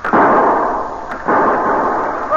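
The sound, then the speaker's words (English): Gunshots on the deck of a schooner: two loud bangs, each followed by a long noisy roar that stays strong rather than fading quickly. “Somebody's shooting on deck.”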